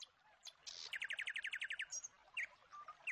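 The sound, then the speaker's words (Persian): Nightingale song: a quick rhythmic run of repeated high chirping notes framed by scattered whistles and twitters, fairly faint and without voices. “گوش کن میشنوی صدای چهچهه بلبل،”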